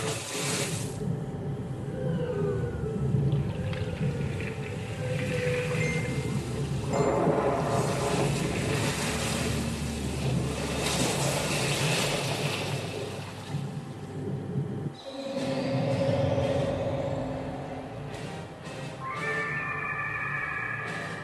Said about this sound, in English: Gigantic whale creature is waiting for you underneath the water.